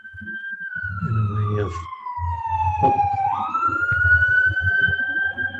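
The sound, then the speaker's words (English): Fire engine siren from a fire station just down the street from a Zen Center, a loud wailing tone that slides down in pitch and then climbs back up, sustained throughout. “I have a fire station just down the street from the Zen Center, so I want to pause before I say anything.”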